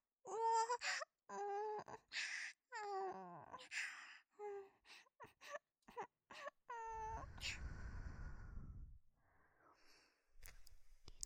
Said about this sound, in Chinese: 好了，宝宝，别哭了。